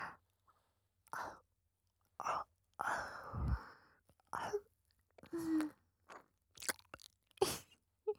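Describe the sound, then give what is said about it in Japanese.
Gentle nibbling and mouth sounds on an ear, with many short, soft, wet bursts separated by quiet gaps and breathy whisper-like sounds among them. “大丈夫。本当に食べたりしないよ。甘噛みしてるだけで楽しい。”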